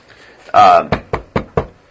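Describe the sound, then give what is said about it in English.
Knocking on a door: a louder opening burst followed by four sharp, evenly spaced raps that ring out clearly with quiet gaps between them. “At this point, there's a knock on the door.”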